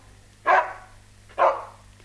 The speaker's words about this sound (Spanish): No escuchó a su perro que le ladró para despedirlo a la salida de la casa.